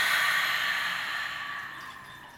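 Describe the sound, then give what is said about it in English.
A long, breathy exhale releasing a deep breath during a guided meditation, a steady airy rush that slowly fades over a couple of seconds. “Okay, so let's take a nice deep breath in and release.”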